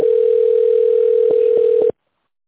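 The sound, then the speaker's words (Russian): A telephone line tone plays while a call is transferred: one steady, fairly loud continuous tone. A few faint clicks come near the end, then it cuts off abruptly, leaving silence. “Вызов переводится на администратора.”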